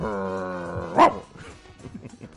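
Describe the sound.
The boss's dog gives one sharp, loud bark after a sustained tonal sound, followed by faint low noises.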